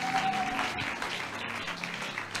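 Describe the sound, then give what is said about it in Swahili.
Applause from a church audience clapping in praise of Jesus: a dense, continuous patter of many hands at an even, moderate level throughout. “Na watu wa Mungu waseme amen. Mpe Yesu makofi ya utukufu.”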